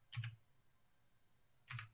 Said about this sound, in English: There, I just typed it in the A category.